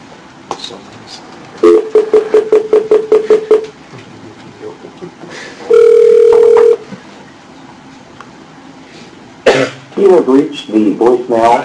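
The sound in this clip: Telephone tones during a call that rings through to voicemail: a quick run of short, evenly spaced beeps, then one sustained tone, with voice sounds near the end.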